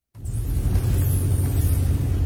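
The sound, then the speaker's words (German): A car engine rumbles as the vehicle drives into a dark forest in the Lower Engadine at night with game wardens, the steady low drone starting abruptly after a brief silence and holding even throughout. “Zusammen mit dem Wildhüter Kurdin Florinet fahren wir in den dunklen Wald oberhalb von Schkuhl.”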